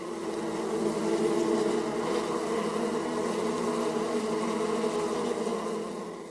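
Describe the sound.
Bees buzz among flowers in a steady, continuous drone that holds an even level throughout and fades slightly at the very end, with no voices.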